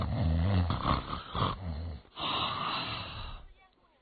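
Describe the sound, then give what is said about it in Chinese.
Storyteller vocally imitating the loud, drunken snoring of Yang Lin: a few rough, snorting, growl-like breaths, heavy at first, then fading to near silence at the end. “可是杨林确实喝多了，这鼾声起来了。”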